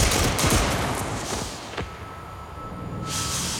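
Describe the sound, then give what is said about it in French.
Firing squad rifles fire a volley in a dense, loud burst of crackling shots that decays into a lingering rumble. A sharp crack stands out midway, and the noise swells again at the end. “il est donc condamné à mort et fusillé. Formez le peloton. En joue, feu.”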